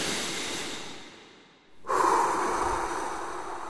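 Deep, heavy breathing: one long, airy breath trails off into a brief near-silence, then another breath starts abruptly and loudly and carries on to the end.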